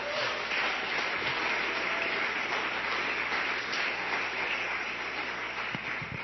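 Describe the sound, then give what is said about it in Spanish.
An audience applauding in praise of the Lord during a church service, a continuous, even roar of clapping that stays steady for several seconds without talk. “Un aplauso al Señor.”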